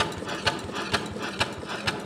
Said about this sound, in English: And above that, a couple metal gears and pistons pump furiously.